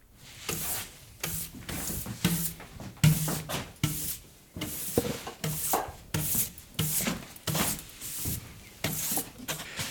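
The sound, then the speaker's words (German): Cloth rubbing linseed oil varnish into a large wooden surface in a workshop: many rhythmic, rasping strokes that swell and fade in a steady back-and-forth pattern, with no talking. “arbeiten wir mit Leinölfirnis und einem Lappen. Trägst du das Öl auf.”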